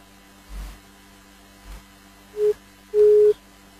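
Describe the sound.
Busy tone after a phone call is cut off: two steady mid-pitched electronic beeps, the second longer, following a couple of dull low thumps over a constant background hum.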